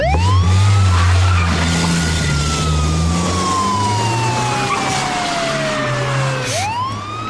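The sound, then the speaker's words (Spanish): A loud police siren wails over the low rumble of a vehicle engine. Its tone slides slowly downward for several seconds, then sweeps quickly back up near the end. “Tú, querido esclavo, oyes una sirena policial y te paras acojonado.”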